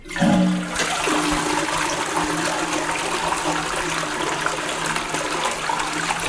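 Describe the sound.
A toilet flushes, opening with a loud rush and settling into a steady, full gush of water that keeps going to the end.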